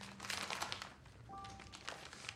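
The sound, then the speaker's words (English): Paper crinkling as an envelope is opened, a faint run of rustles and crackles in irregular bursts. “She opens an envelope.”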